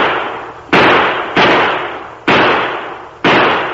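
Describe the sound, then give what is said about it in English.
Four loud gunshots fired overhead as warning shots, each a sharp crack with a long decaying tail, spaced unevenly apart with no voices in between. “He's in no danger. My shots didn't come within a dozen feet of him. That was a warning!”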